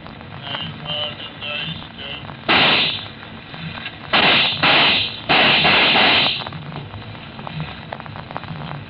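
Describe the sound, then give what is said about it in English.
Gunshots in an Old West shooting of a man holding only a Bible: four loud, sharp cracks with a ringing tail, one alone and then three close together, over a quieter background. “Shot him. Nothing but a Bible in his hand. They shot him.”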